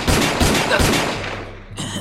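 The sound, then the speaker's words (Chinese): Gunshots ring out in a narrow alley, a few sharp, loud blasts fired in quick succession, each cracking hard and leaving a fading ringing tail, with one more burst near the end. “埋伏在他身后的人几乎同时开枪”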